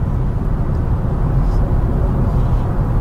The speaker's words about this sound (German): Also wenn ich aufs Gas steige, gut, die Achtgang-Automatik, über die gibt es sowieso nicht viel zu sagen, weil die bei BMW grundsätzlich perfekt ist. Da geht echt was vorwärts.